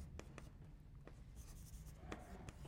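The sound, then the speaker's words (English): Writing on a board during a game theory lecture, faint, scratchy marker or chalk strokes in a quick series of short taps and scrapes, with no talk. “I surely can write that at a better angle. Let's try that again.”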